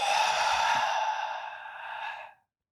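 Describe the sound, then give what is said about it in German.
A long, slow exhale during a breathing exercise, an airy, breathy rush that starts strong and gradually tapers before fading out. “Und ausatmen.”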